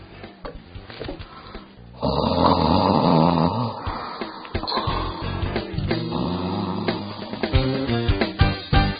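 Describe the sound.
Snoring from a person taking a nap, loud and continuous from about two seconds in to the end, preceded by a quieter, rougher stretch.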